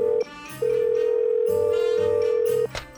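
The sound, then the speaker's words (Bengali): A telephone ringing tone sounds as a call is placed to a police station. A short, steady mid-pitched tone cuts off, then after a brief pause one long continuous tone holds before stopping abruptly. “ফের থানায় ring করলাম”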